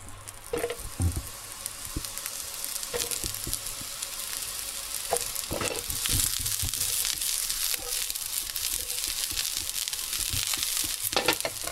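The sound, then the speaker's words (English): Mushrooms sizzle in a pan for miso mushroom pasta, a continuous bright frying hiss broken by a few soft scraping and stirring knocks, with no talking. “what you're gonna do is add the mushrooms, but not all of them, just add just enough so that it kind of has space still to move around so you don't overcrowd the pan. I'm gonna add mine in right now.”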